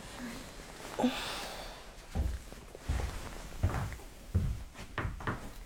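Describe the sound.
Footsteps of a person with a headache, struggling to get up and walking to the bathroom: about five soft, low thuds in an uneven rhythm after a quiet opening.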